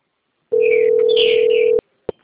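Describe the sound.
Telephone ringback tone heard while placing a call to a bank: a single steady tone lasting over a second, then cutting off, followed by a couple of brief clicks on the line.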